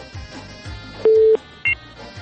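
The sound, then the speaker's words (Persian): A phone call being cut off: two short electronic tones, the first lasting about a third of a second and the second briefer and higher, over faint background sound. “بله، تماس خواهر ما متاسفانه قطع شد”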